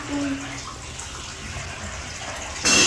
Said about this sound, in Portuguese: Tem água. Tá caindo água. Tá correndo água.